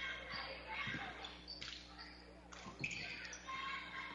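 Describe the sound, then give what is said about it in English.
A few quick basketball bounces ring out as a player dribbles on the court during a Loomis versus Overton girls' basketball game. The short thuds come in two small clusters beneath steady commentary and faint gym noise. “So a little dribble here.”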